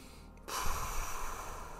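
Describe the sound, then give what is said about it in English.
A slow exhale through pursed lips, as if blowing up a balloon. After a short pause, it becomes a soft, steady, breathy hiss that lasts over a second. “Eyes open, breathing out through the mouth, through pursed lips. The best way to try and imagine it is we're blowing a balloon.”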